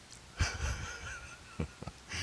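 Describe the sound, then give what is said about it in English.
A deep breath drawn by a man pausing mid-speech, heard as a soft, airy, slightly wheezy inhale with a few brief snorting puffs after it, faint and without words. “So, excuse me. I got to take a breath. I'm getting all wound up.”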